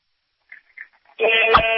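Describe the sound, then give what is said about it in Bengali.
A car horn honks down a phone line in a steady, flat, sustained tone. A couple of faint short blips come just before it. “মানে একটা গাড়ি phone করছে সে রীতিমতো horn বাজাচ্ছে।”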